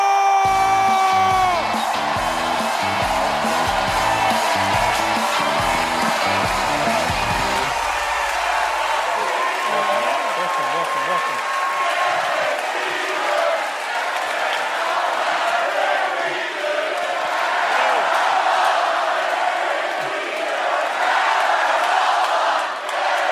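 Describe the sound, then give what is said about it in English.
A talk-show studio audience loudly cheering and chanting for Derek Jeter, five-time World Series champion and former Yankees captain, first over music that cuts off after several seconds, then a sustained crowd roar. “Wow, that's never happened to me. I need to roll with you. Like, people start chanting my name because you're like, that's never happened to me.”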